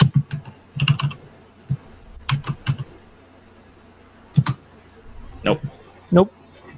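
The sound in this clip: Fingers type on a computer keyboard to enter a d20 dice roll in a tabletop role-playing game, with quick clusters of clicking keystrokes separated by short pauses.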